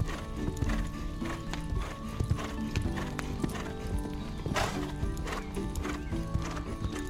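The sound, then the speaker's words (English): Hooves clip-clop rapidly as horses run, among them a dapple gray, making many sharp, irregular knocks, with a horse's whinny rising out of the galloping partway through. “whinnied Tinkle's mother. So she and Dapple Gray ran back to the green meadow.”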